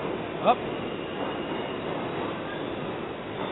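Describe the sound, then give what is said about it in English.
A subway train recorded underground gives a low, steady rumble that fills the whole clip. Early on, one brief high metallic squeal cuts through before the rumble continues evenly. “Is that a Subway? In the Subway. I brought a microphone to the Subway.”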